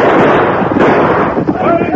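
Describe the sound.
Gunfire in a western shootout: dense, overlapping shots merge into a continuous loud clatter for the whole stretch, with voices mixed into the din.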